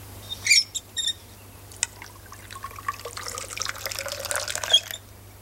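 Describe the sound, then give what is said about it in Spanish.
Wine poured from a wineskin into a drinking horn held by a goatherd: a few short splashy spurts, then a longer stretch of light trickling and dripping that ends abruptly, with no voices. “Sancho echa el vino de un odre en un cuerno que sostiene el cabrero.”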